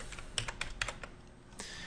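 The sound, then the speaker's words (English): Random values being typed on a computer keyboard: a quick, irregular run of light clicking keystrokes, faint and steady, with no speech. “So just start typing some random values.”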